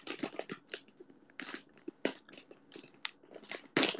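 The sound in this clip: Someone eating a crunchy potato snack, with many faint, sharp bites and crunches in an irregular rhythm, and no talk.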